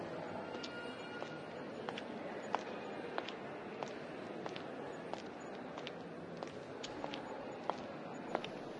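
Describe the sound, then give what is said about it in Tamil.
Footsteps walk back along a hospital ramp. Many soft, evenly spaced steps keep a brisk, regular rhythm over constant low hiss. “நடக்கிறது கேக்குதா? கொஞ்சம் speedo நடந்து போலாம்.”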